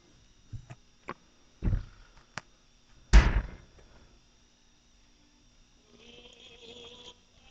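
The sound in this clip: A cabinet door being opened, heard as a few sharp clicks and small knocks, then one louder thud, followed by a faint steady hum.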